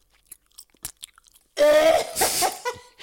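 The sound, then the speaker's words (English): Chewing food: faint, irregular wet clicks and crunches for about a second and a half, then a louder, voiced throaty burst takes over for the rest. “But she said that she enjoyed the noise of me eating in the headphones.”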